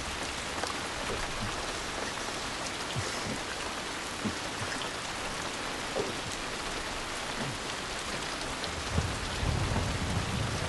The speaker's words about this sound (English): Rain hammers down onto the car's damaged roof.